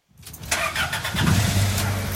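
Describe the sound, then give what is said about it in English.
The engine of an aging, gasoline-powered white postal delivery truck in Philadelphia rumbles into life and keeps running with a steady, loud, low growl. “This hulking white postal truck in Philadelphia is among more than 140,000 on the road that get an average of 8.2 miles to the gallon.”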